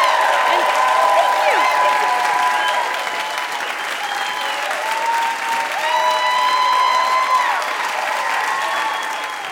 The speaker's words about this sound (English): Big hand for Ellie Kemper, everybody.